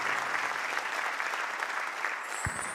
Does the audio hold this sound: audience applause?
yes